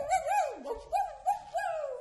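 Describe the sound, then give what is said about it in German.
A voice imitates a howling dog with a few wavering, tonal howls whose pitch rises and falls, delivered alone and fairly faint. “Und ich könnte jaulen,”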